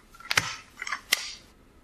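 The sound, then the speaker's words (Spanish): A stapler snaps with sharp mechanical clacks, a couple of crisp bright strikes separated by a softer rattling crunch, heard on its own without voices. “¿Una engrapadora? ¿Una engrapadora? No, ¿verdad? No, pero... ¡Sí! ¡Sí!”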